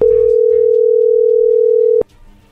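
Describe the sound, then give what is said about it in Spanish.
A telephone dial tone plays while a call is being placed, a loud, steady single-pitch hum that lasts about two seconds and then cuts off with a sharp click, leaving only faint low rumble. “ahí se está marcando, vamos a ver qué dice Alejandra.”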